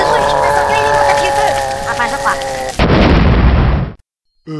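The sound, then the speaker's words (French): A loud, roaring explosion bursts in suddenly after a stretch of layered tonal sound, rumbling for about a second before cutting off abruptly into silence. “Il a explosé”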